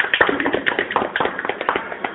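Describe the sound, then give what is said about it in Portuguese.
Hand claps from a small gathering of about six people: a quick, uneven patter of sharp claps that runs steadily for about two seconds at moderate loudness. “Palmas de novo.”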